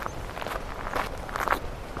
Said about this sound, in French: Une petite brise marine nous accompagne au long de cette marche.